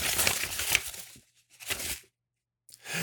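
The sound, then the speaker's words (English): A paper envelope is grabbed and opened, with crisp rustling and tearing in three short bursts separated by brief silences. “Let me grab the envelope.”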